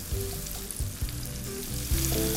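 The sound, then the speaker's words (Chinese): Hot oil sizzles steadily as popcorn chicken deep-fries in a wok, half a batch at a time, with a few louder bubbling surges breaking through the constant crackle, and no voices. “我先炸一半就好，因为锅子不够大。 好， 鸡米花”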